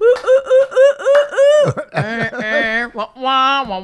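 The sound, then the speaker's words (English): A voice imitates a baby's noises in a crib: a quick run of short, squeaky, chirping bursts, then longer wavering, warbling cries with a laugh-like quality. “Do that noise again. That's... That's what the baby sounds like in the crib.”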